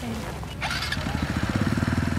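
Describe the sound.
A motorbike engine putters with an even, throbbing low pulse that settles into a steady rapid rhythm, loud and alone.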